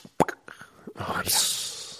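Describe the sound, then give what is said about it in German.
A voice imitates a cold energy drink can popping open, giving a sharp breathy hissing burst that trails away, after a few short mouth clicks and sounds. “die Monsterdose kalt aus dem Kühlschrank entnommen habe, mich richtig drauf gefreut habe, macht die Dose auf, dann macht sie dieses”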